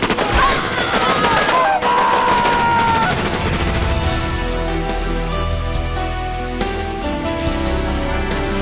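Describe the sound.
Gunfire in a dramatized battle scene from an audio drama: a dense, loud barrage of shots and blasts that runs without a break through the whole passage, with a brief tonal sound early on.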